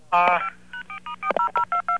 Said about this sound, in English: You're going to have to dial a 9 first. Do you have a touchtone phone?